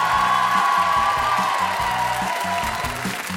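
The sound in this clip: Cheering and applause from a studio audience, a loud, continuous wash of crowd noise with whoops that holds steady for the whole stretch.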